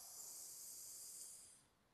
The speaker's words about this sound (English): Take a big inhale,